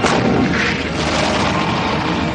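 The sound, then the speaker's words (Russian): Gunfire from a soldier's weapon in a fight with tanks: a loud, dense wall of booming shots and blasts that stays steady for the whole stretch, with no talk. “Тщательно целясь, стреляет Борзых”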